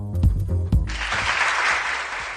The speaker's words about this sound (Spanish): Y este aplauso al semáforo en verde